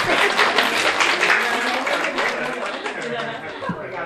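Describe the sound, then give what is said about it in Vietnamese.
Audience applause during a Buddhist dharma talk, a fairly loud, dense wash of clapping that stays steady throughout and eases slightly toward the end. “Vỗ tay.”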